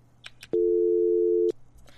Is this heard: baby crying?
no

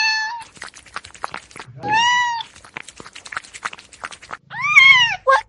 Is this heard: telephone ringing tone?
no

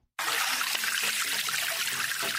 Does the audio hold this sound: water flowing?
yes

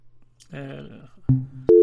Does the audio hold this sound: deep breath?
no

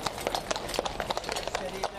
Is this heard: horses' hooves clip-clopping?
yes

